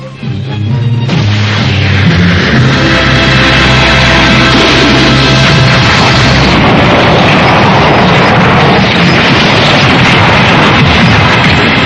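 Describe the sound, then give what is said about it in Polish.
A scanner device explodes in a cartoon scene. The loud blast swells into a continuous, roaring rumble that carries on for several seconds without a break. “Licznik zaraz wybuchnie.”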